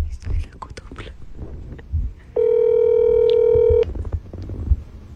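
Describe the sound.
A ringback tone sounds on an outgoing phone call that ends up rejected: one steady, even electronic tone lasting about a second and a half, set between stretches of voices and soft whispering.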